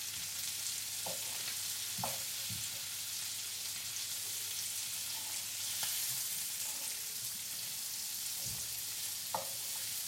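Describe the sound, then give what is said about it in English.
Leeks softening in butter in a pan over medium heat give a steady, gentle sizzle throughout, broken by a few brief scrapes and clicks of stirring. “And now what I'm going to do is I'm going to throw in the leeks. Now you don't want to brown these, you want to soften them. So, turn that down. Medium heat you need.”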